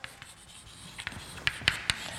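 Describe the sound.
Writing on a board during a mathematics lecture: a series of quiet, crisp taps and light scratches in an irregular rhythm, a few clicks standing out more sharply near the end, with no speech.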